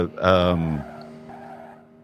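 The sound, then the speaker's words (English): Tires screeching in a racing video game: a brief, loud, harsh squeal that bursts out and then fades into a lower, fainter skid tail. “a lot of screeching, as you can tell”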